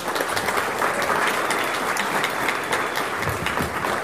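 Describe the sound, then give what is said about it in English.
An audience at a lecture event applauds to welcome a speaker to the stage, with dense, loud, steady clapping throughout. “Ladies and gentlemen, please put your hands together and welcome to the stage, Stuart McDonald.”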